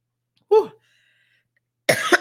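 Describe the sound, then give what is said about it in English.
A single short, sharp cough from a person, followed by silence and then a brief burst of talk. “Let me grab something for my cough.”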